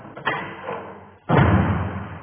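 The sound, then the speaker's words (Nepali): A door slamming shut with two thuds, a lighter knock followed by a heavier, longer boom. “त्यस बेला ढोका बन्द भयो।”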